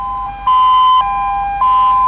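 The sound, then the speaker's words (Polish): Sirens welcoming firefighters back from Sweden: steady, high electronic tones that waver slightly in pitch and swell louder in two stretches, with no voices. “Strażaków powitały syreny i wodna kurtyna.”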